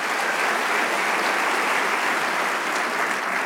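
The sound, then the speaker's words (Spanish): Congregation applause during a church worship service, a uniform, continuous patter of many hands clapping at a moderate level with no talking over it. “Le damos un aplauso al Rey de Reyes.”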